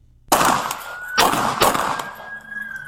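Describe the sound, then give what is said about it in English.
Pistol gunshots fired repeatedly at a man near a parked car: a few sharp, loud cracks with decaying tails between them, and a steady high tone running underneath. “Well, he's got to go back to the pistol range. He ain't dropped. Now he just did 17 shots.”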